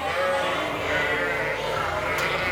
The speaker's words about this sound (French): Chacune appelle son agneau et l'agneau appelle sa mère pour qu'ils arrivent à se rejoindre.